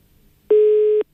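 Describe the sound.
A telephone busy tone after a caller's line dropped during a phone-in, heard as one steady mid-pitched beep lasting about half a second and ending abruptly, with near silence before and after.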